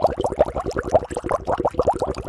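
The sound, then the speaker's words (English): Maple sap boils in a big kettle over a fire, making quick, irregular bubbling pops and gurgles that run on without a break at moderate loudness. “Then the farmer collects all the sap and puts it into a big kettle under a fire. And then they boil it and boil it and boil it for a long, long time.”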